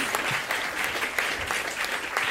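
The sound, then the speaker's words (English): Audience applause for a speaker at a live event, a steady wash of many hands clapping, even in loudness throughout, with no talk over it. “just give it up for Jane McAlevey for dealing with this”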